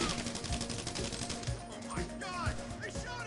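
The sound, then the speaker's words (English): Video game gunfire rattles out as many sharp, rapid shots in irregular bursts over a steady background din. “Oh my god! I shot him!”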